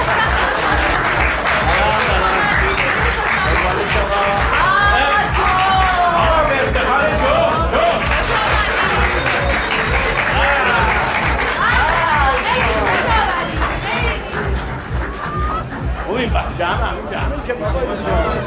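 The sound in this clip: An audience claps to welcome a guest: steady, continuous applause runs throughout under lively chatter and overlapping voices.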